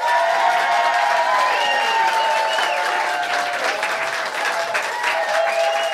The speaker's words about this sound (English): we'll have everyone applause, and then we'll begin the interview. We'll have everyone applaud. Okay, here we go.